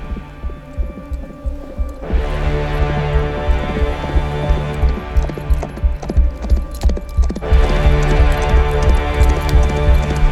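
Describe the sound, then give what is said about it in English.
Horse hooves clip-clop as a rider rides off toward a ranch house. Many steady, rhythmic hoofbeats play over a low, continuous hum, and the hooves grow louder after the first couple of seconds. “Then he rode towards the ranch house.”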